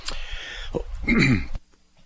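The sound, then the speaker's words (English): A single harsh cough with throat clearing comes in a few rough bursts, loud and alone, then breaks off abruptly into near silence. “Sorry about that, I just had a cough.”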